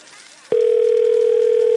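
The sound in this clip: A phone call rings out with no one picking up: after a half-second of quiet, a steady, loud, mid-pitched telephone tone begins and holds unbroken to the end.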